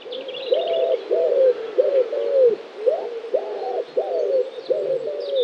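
A pigeon with neck markings, once a forest bird and now also seen on city lawns, coos in long complex phrases: many low, hooting coos in a rhythmic, repeating sequence, with faint higher chirps from other birds above.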